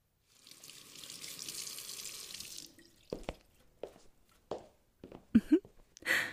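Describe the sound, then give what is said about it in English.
A tap runs as a school nurse washes her hands. A steady stream of water flows for about two seconds, then the flow stops and a few scattered drips and wet handling noises follow. “Let me just wash my hands real quick and I'll be right over there.”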